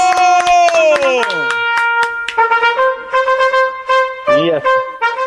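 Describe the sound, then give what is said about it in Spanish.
A fanfare sound effect played on a call-in radio show: bright, brass-like chords that slide downward, then a run of short, punchy stabs and sustained tones, loud throughout. “A ver, pongan fanfarrias para él.”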